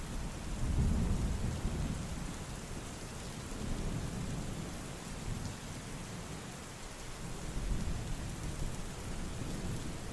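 Rain pours steadily through a thunderstorm, and low thunder rumbles swell near the start and again later on. The storm stays soft and continuous throughout, with no voices.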